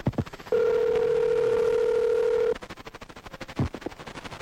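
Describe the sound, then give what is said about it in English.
A telephone dial tone hums while a call is dialed: a steady, mid-pitched tone held for about two seconds, with brief clicks and irregular noises before and after it. “I'm dialing up little Chipper to see what I can see.”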